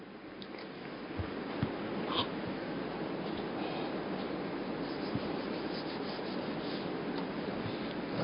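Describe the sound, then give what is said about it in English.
A marker drawing on a board: a faint, continuous scratchy rubbing of strokes with a few slightly louder squeaks, steady throughout. “Right, so on the board here, you see comforts. Now let me draw happiness for you.”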